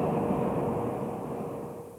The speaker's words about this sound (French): on vient de presser sur le premier bouton qui permet à la première rame de partir. Voici apparaissent les deux lumières qui nous indiquent l'arrivée du premier train du métro de Montréal.